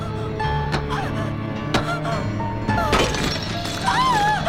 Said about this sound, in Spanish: Coge una piedra del suelo y golpea el cristal.